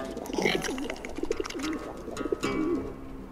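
Pigeons cooing: a series of low, warbling coos repeating at an uneven rhythm, moderately loud over a faint background of other noise.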